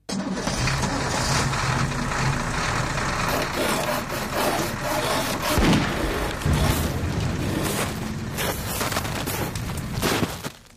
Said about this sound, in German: Der Lastwagen kletterte schwer keuchend auf den Pass des Jablonowi-Gebirges.